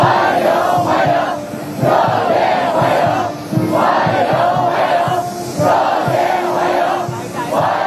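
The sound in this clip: Crowd of students in Beijing welcoming the US president, loud sustained cheering and shouting that swells in about four rhythmic waves.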